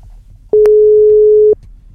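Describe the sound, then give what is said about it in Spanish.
A telephone ringback tone sounds while a caller is being dialed: one steady, mid-pitched electronic tone lasting about a second. It is loud and alone over a faint low background. “Atención, te estoy marcando. Te estoy marcando.”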